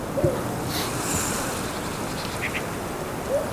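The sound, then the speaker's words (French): Sea waves wash steadily along the coast near the town of Piran. The rush of water and wind is continuous and even, with a couple of short duck quacks near the start and the end. “Vous l'aurez compris, on est au bord de la côte.”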